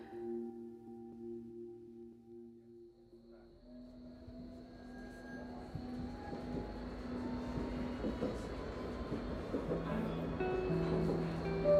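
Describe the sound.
A nearly empty train rides along with a low, steady rumble that slowly grows louder, and a thin tonal whine runs above it.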